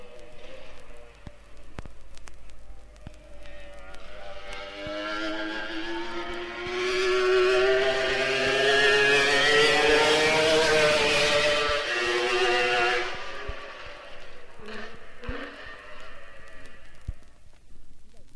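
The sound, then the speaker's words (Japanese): Engine roar of the H1R racing car passing a grandstand at high speed, a harmonic drone that swells steadily to a loud peak mid-clip, holds briefly, then fades gradually without any voices. “H1R は素晴らしいスピードでスタンド前を通過します。”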